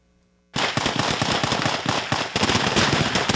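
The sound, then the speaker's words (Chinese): Rapid gunfire from a handheld long gun: after a brief quiet, a dense, unbroken stream of loud cracks starts abruptly and runs to the end. “手持长枪连续发射子弹”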